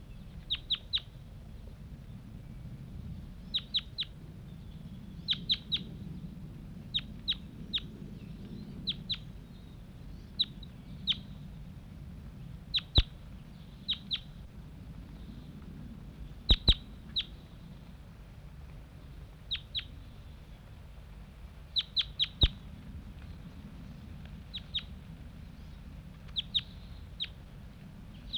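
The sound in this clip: Birds calling from down a hollow after taking off: many short, sharp, high-pitched calls in clusters of two or three, faint over a constant low rumble.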